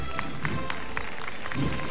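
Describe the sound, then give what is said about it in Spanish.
Crowd applause breaking out at an event where a march is being played: scattered claps over a steady bed of crowd noise. “Esto habría que aplaudirlo, ¿eh? Claro, aplaudan”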